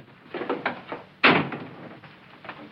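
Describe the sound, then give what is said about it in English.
A door in a saloon opening and closing: a few soft knocks and shuffles, then one sharp, loud bang that slowly fades, followed by quieter low knocks. “The gambler leaves via a different door.”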